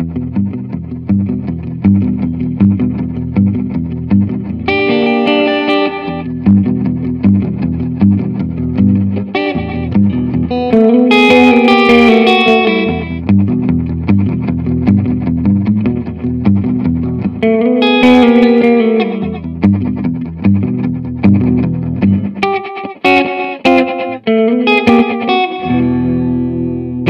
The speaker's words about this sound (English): the pre-delay knob is going to add feedback, and the diffusion parameter adds a new dimension of ambience. And I literally just read that from the Strymon website.